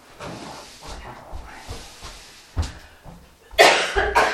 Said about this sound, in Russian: Ну, все время кто-нибудь кашляет. Все, мне кажется, привыкли. Ни одной записи без кашля сейчас нет.